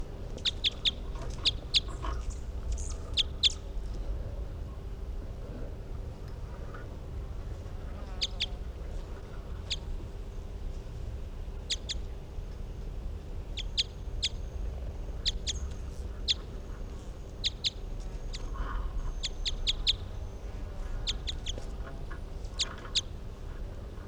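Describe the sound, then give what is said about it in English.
Bird calls: many short, high chirps come in scattered bursts over a steady low background noise. “And these are the calls of bird 363.”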